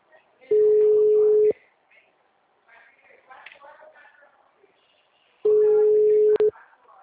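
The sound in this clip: Long, steady phone tones from an unanswered call to a client. There are two sustained bursts, with people talking quietly in the gap between them.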